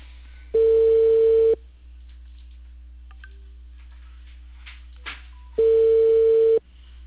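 Ringback tone sounds while a phone call is being placed: two steady, mid-pitched beeps of about a second each, roughly four seconds apart, over faint line hiss with a small click between them.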